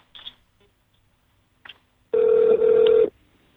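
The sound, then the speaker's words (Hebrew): A telephone ring tone sounds once on a call to the police in Lod, a steady buzzing tone lasting about a second, preceded by a few faint clicks. “אני רוצה להשמיע לך שיחת טלפון, ברשותך, שיחה קצרה של מישהי מלוד עם המשטרה”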